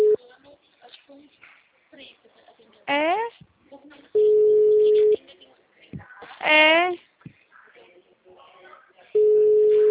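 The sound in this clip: Ringback tone of an outgoing phone call that goes unanswered. Long, steady mid-pitched beeps recur about every five seconds, with a person talking in the gaps between them.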